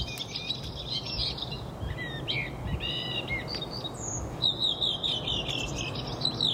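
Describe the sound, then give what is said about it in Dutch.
A redwing and a blackbird singing with spring-like song, a few thin high chirps and warbling phrases scattered throughout, fairly faint over a steady rumbling background noise. “Een koperwiek en een merel. En heel opvallend, ze lijken het voorjaar in hun bol te hebben.”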